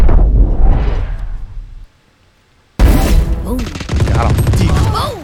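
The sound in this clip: Video game combat with gunfire and a grenade-like blast: a loud burst of shots and a boom, a brief near-silent gap, then dense rapid gunfire that keeps going to the end.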